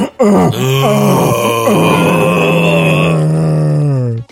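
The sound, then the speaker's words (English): A man's drawn-out groan of pain, one loud, sustained voiced moan lasting about four seconds at a fairly steady low pitch, with no other sounds around it. “Resulting in a loud smack, followed by, oh great, a drawn-out groan.”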